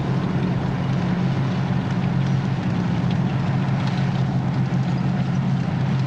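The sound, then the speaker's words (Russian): Loud, unbroken engine rumble of a column of tanks driving onto a clearing and into a forest, a heavy low drone with a steady humming tone and no break or voices. “Колонна танка выезжает на поляну. Колонна въезжает в лес.”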